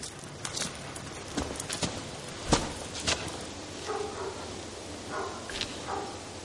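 Footsteps of a woman walking through a street at night: a few sharp, irregular, hard-soled taps over a faint, steady background.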